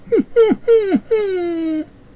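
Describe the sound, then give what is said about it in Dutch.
An animal whines with joy in four high whimpers. The first three are short, each falling in pitch, and the fourth is a longer, drawn-out whine that fades into quiet. “Hij jankt van blijdschap en nu is hij stil.”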